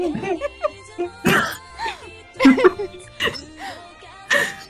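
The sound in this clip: Throat clearing from someone asked to clear their throat before speaking, heard as a few short, rough bursts between stretches of talk.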